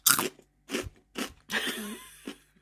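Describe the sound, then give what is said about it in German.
A crunchy apple crackles crisply as it is bitten into and chewed, a few sharp crunching bursts separated by brief silences. “Ich will euch kurz demonstrieren, wie dieser Apfel klingt, ja? Also, es gibt die nächsten 3 Sekunden.”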